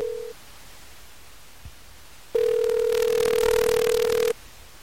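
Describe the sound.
Telephone tones while calling back after a dropped line: a brief steady tone, then a pause with a faint click, then a long, steady buzzing ring tone lasting about two seconds before cutting off.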